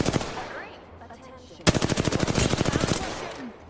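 Rapid automatic gunfire in the video game Apex Legends: a loud, dense burst of quickly repeating shots erupts over quieter game sounds, then tapers off.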